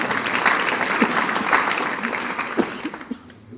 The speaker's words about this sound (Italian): Un applauso a tutti.